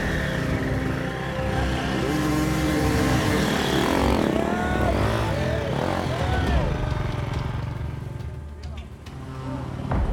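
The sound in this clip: A dirt bike is ridden through the woods in an enduro race, its engine revving up and down in wavering bursts under steady talking.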